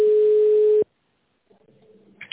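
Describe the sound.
Telephone ringing tone as an automated phone system connects a call to a receptionist: one steady mid-pitched tone lasting under a second, then a break of silence and faint line noise.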